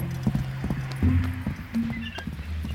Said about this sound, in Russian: Ее муж запрыгивает в седло и скачет в степь.